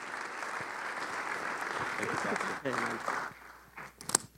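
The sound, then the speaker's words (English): An audience applauds at a church service to welcome a speaker to the stage. The clapping is steady and dense, with a few voices briefly audible before it tapers and thins out at the end. “So would you put your hands together and welcome him up to the stage as he closes us out for this morning's messages.”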